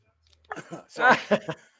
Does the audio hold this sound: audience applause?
no

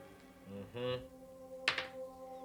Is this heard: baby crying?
no

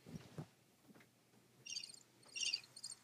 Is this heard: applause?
no

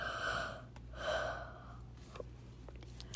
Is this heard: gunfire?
no

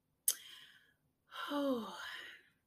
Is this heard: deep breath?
yes

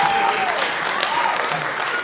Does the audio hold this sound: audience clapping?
yes

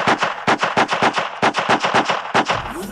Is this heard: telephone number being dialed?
no

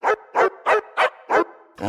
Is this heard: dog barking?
yes

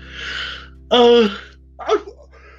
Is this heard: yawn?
yes

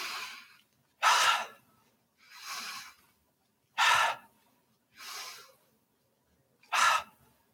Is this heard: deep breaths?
yes

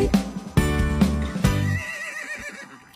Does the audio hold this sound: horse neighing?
yes

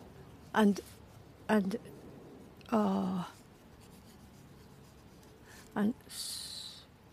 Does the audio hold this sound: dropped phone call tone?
no

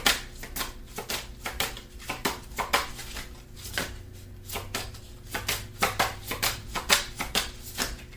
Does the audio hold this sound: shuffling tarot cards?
yes

